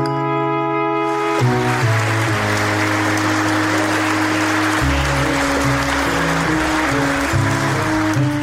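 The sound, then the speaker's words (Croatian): An audience applauds actors after a theatre premiere in Belgrade: a dense, sustained clatter of many hands that swells in after a moment and carries on at an even level, layered over held, slowly shifting musical chords. “Publika u Beogradu pozdravlja glumce nakon još jedne uspešne premijere.”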